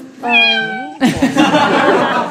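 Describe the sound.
A single drawn-out cat meow whose pitch bends downward at the end, loud and clear, followed by a burst of noisy laughter and voices.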